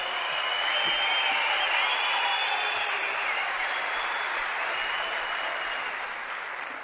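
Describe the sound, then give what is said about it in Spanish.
Loud, sustained applause from a crowd at a party, a dense even roar of clapping that holds steady and eases off slightly at the end. “fuerte el aplauso ahí.”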